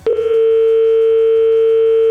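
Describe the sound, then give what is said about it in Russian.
A telephone dial tone heard while a call is being placed, a loud, steady single-pitched hum that starts abruptly after a brief click and holds unchanged to the end. “теперь я звоню”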